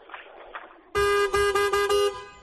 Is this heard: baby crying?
no

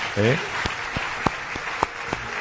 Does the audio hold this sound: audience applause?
yes

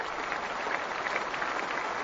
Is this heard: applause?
yes

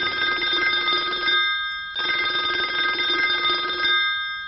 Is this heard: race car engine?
no

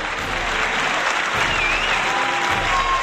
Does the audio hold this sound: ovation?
yes

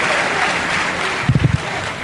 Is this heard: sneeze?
no

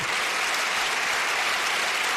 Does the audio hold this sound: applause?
yes

